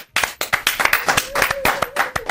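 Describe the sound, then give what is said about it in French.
Audience applause at the close of a concert: dense, brisk clapping bursts in after a brief silence and keeps going, loud and steady, without talk. “je veux vous applaudir, bravo!”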